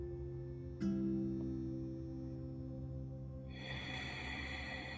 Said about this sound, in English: Let's start with five breaths, five slow, deep breaths.